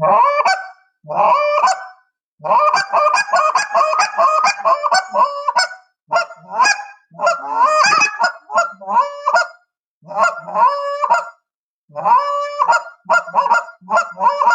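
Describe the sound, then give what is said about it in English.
A goose call blown in moan and cluck notes for hunting Canada geese, many loud, honking clucks in rapid runs broken by short pauses, with drawn moaning tones mixed in. “a moan cluck for hunting Canada big geese is what they need to learn, because that sound that right there”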